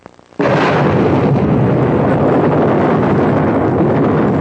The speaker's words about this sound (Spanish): Todos brincaron. Y esa no fue una explosión muy fuerte.